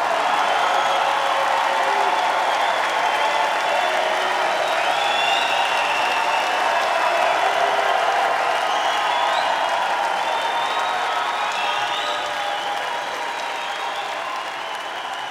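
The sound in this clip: Concert audience applause welcoming a symphony orchestra, the Washburn Symphony Orchestra, onto the stage; a sustained, even wash of clapping that eases slightly toward the end.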